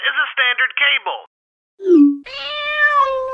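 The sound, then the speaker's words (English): A cat meows: a few short, chattering calls, then a pause, a brief low murmur, and a longer, sustained tonal meow whose pitch wavers slightly. “This is a standard cat.”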